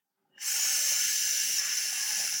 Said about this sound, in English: A quiet hiss from the universe could be what we need to reveal the secrets of our cosmic dawn.